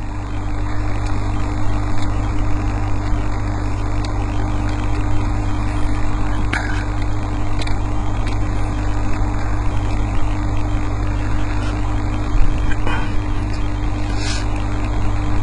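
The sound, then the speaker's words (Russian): Buzzing drone of Linux kernel binary data played back as audio: a loud, steady mechanical hum with constant tones and a few brief clicks, no voices. “Одну секунду, ядра Linux. Это скорее там какие-то были таблички в начале, индексы, может быть, вектора прерываний, что-то такое. Вот это вот так звучит.”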